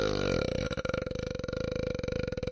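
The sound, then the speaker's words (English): A long, drawn-out burp, a low, buzzing belch with rapid rattling pulses that holds its pitch fairly steady for more than two seconds, heard alone without talk. “I can see what a burp sounds like. It's like,”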